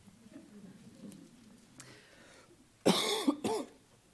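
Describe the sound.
Two sharp, loud coughs from a preacher after something went down the wrong way during a Bible reading, breaking a quiet background.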